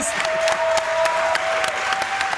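Audience applause at a live show, a steady, moderately quiet patter of claps across the whole clip with a thin, sustained high tone running beneath it.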